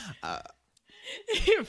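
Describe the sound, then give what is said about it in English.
A burp let out into a microphone, short, low and rough, landing among bursts of people talking. “You just burp into the fucking microphone.”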